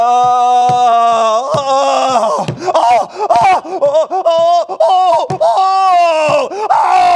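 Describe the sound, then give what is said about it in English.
A lone voice imitates the anguished screams and wails of people dying and going to hell, a loud, unbroken run of sliding, wavering cries and groans whose pitch swoops up and down throughout. “Imagine on top of that, hearing screams. Imagine hearing,”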